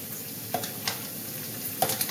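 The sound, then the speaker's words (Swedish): Quick macaroni cooking with mini-sliced bacon in a cream sauce: a soft, steady sizzle runs throughout, broken by a few light clinks and scrapes of stirring. “jag lagar snabbmakaroner”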